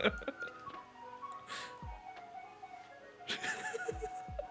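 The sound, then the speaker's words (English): An ice cream van's melodic chime plays faintly outside, a thin tune running through the whole stretch under low background noise and a few soft thuds. “ice cream van turned up, if you can hear that very subtly in the background.”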